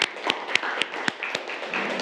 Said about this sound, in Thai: ปรบมือให้กับเพื่อนนะครับ